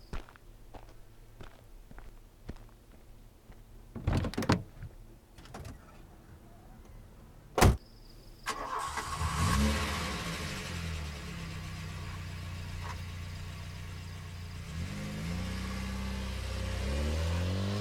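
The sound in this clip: A car door shuts and the car drives away. A few soft footsteps come first, then a sharp slam. The engine starts with a loud rev and settles into a steady running drone.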